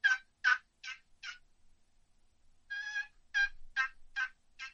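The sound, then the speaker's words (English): Wild turkey gobbler notes are imitated on a regular box call, as slower, drawn-out raspy yelps. Four sharp notes come first, then a short pause and a further string of similar notes, all alone and fairly loud. “I'm just using a regular box call there, but you know, a gobbler, you may hit three or four notes, just be a little slower.”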